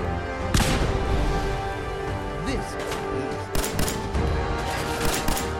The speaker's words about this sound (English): I threw a grenade.